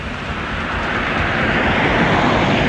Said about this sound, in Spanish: Ahí viene un vehículo, ¿no? A ver si viene exceso de velocidad. Viene muy fuerte, mira. Muy fuerte bajando.